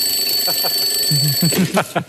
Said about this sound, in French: J'ai oublié de couper le réveil parce que ça fait une heure que je suis debout.